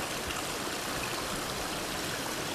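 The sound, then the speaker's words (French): A small stream winding between fir woods, its water rushing and babbling in a steady, unbroken flow with no pauses or voices. “nos longeons ce petit cours d'eau. Il serpente”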